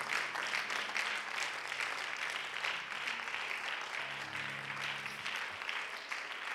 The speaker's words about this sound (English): I can feel the clapping. I can feel it.